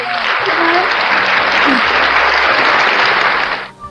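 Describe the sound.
Applause for a guest: dense, loud clapping from a group, steady for several seconds before stopping abruptly.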